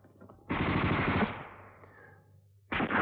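Machine-gun fire: a loud, dense burst of rapid shots lasting under a second, trailing off into a fading tail, then a second sharp burst breaking in at the very end.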